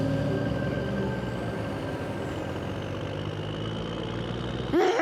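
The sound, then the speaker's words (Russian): A car's engine runs as it starts moving off once a barrier opens. It makes a low, constant rumbling hum with a short sharper burst at the very end, and no one speaks. “Шлагбаум голограммы исчезает. Машина Сафронова трогается.”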